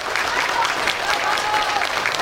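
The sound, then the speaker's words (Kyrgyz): Applause from a full theatre audience after a play: dense, steady clapping that stays loud and even from start to finish across a brief stretch. “Аны көрүүгө зал толоо эл келип, актерлорго узакка созулган кол чабууларды арнашты.”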